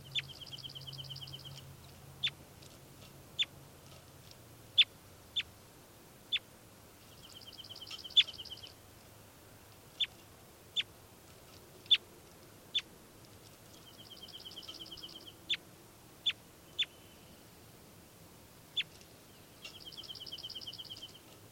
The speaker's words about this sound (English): Recording again, bird 405.